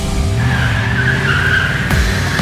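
A car pulls away at the start of a test drive, its engine drone steady and loud with a rising low tone beneath a high whine.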